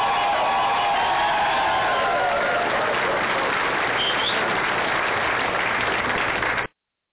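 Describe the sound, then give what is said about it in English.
A studio audience cheering, a loud, dense and steady crowd roar that holds at one level throughout and then cuts off abruptly near the end. “well, apparently the studio audience agrees with me, so here we go.”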